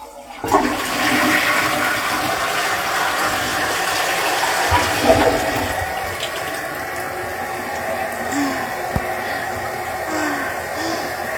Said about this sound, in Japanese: おトイレの中がおしっこまみれなんですけど、ちょっと一回流します。